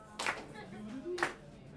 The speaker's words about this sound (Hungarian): Mindenki tapsoljon.